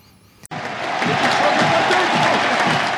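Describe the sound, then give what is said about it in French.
A crowd applauds on the Roland-Garros centre court for Jo-Wilfried Tsonga's farewell after his last match there. The clapping breaks in abruptly and swells into a loud, sustained roar of massed hands that holds to the end. “Ambiance fantastique, irréelle sur le central de Roland-Garros. Le public en folie pour la DER de Joe.”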